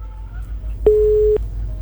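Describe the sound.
A telephone disconnection tone sounds after a call is cut off: one steady, mid-pitched beep lasting about half a second, alone over a faint, low line hum.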